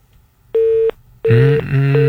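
A telephone busy tone sounds on a call-in line to a Malay music program after a caller's connection drops. One loud, steady beep pulse plays alone, then a denser, fuller tone continues with other sounds mixed in.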